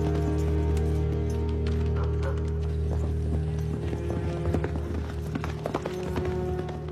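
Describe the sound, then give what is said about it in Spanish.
Horse hooves clip-clop as a rider spurs the animal on, a run of hoof beats over a steady low hum throughout. “espolea al caballo.”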